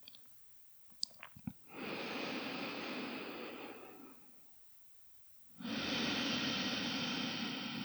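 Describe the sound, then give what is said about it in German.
Slow breath through the nose during an alternate-nostril breathing exercise, ending on an exhale through the right nostril: two long, steady rushes of airflow separated by a quiet gap, after a few faint clicks. “Die letzte Runde abschließen mit der Ausatmung durchs rechte Nasenloch.”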